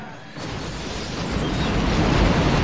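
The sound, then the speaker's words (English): A grenade explosion blowing a boat apart in a fireball: after a brief quieter moment, a sudden loud, broad blast swells into a sustained, roaring rumble that carries on to the end. “The boat explodes in a fireball.”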